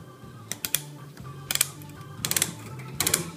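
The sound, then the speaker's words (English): A tool cuts through metal wire mesh, producing quiet clusters of crisp, rapid clicks and snaps. A few separate bursts come at irregular intervals against a faint low hum. “Is it strong enough to cut through wire mesh? Yes. Here it is.”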